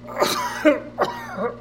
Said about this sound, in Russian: Петрович закашлялся сухим надрывным кашлем